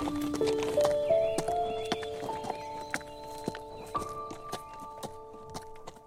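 Horse hooves clip-clop in many uneven steps as a rider mounts, with steady tonal notes running underneath.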